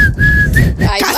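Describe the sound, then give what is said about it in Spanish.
A person whistles a steady, high held tone with a couple of brief breaks, loud and clear over a low rumbling background. “¿El silbido?”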